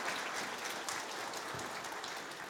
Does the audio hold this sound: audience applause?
yes